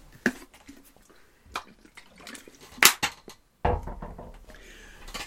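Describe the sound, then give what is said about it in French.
Someone takes a drink of water: soft liquid and handling sounds with a few scattered sharp taps, then a louder burst of noise near the end. “ça vaut même la peine que je prenne une drink d'eau”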